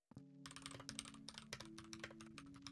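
Rapid typing on a computer keyboard: many quick, clattering keystrokes run continuously over a steady tonal background hum.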